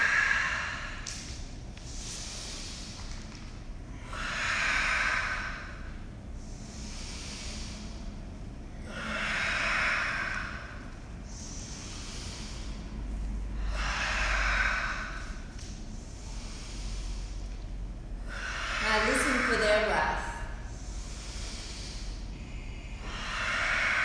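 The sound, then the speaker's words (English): Deep breaths in and out during a stretching sequence: many long, airy inhales and exhales follow one another in a slow, regular rhythm, each swelling and fading softly. “Out. Stretch. Switch sides. Breathe in. Out.”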